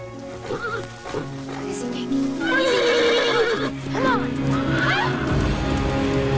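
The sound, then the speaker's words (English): A horse whinnies several times while its hooves clop as it is ridden across a dried-out streambed onto a woodland path, with a voice talking over the sounds. “She rides the horse across the bed of a stream that has dried out and follows a path through the woods.”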